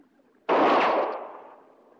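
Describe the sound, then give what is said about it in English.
A single sharp pistol shot bursts out of near silence, loud and abrupt, then trails off in a long, gradually fading echoing tail. “Understand, I ain't aiming for you, Quince. I'm just trying out my arsenal. That was my pistol.”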